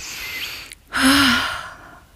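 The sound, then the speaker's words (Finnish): A person breathing heavily: a soft breath, a brief pause, then a louder, longer sigh-like exhale that gradually fades. “Mä hengitän.”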